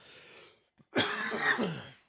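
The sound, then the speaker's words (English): A lingering cough from a person still recovering from illness: a soft breath, then one harsh, raspy, drawn-out cough burst, loud and alone. “Have a horrible cough still. It's just hanging on there from the last time I was sick.”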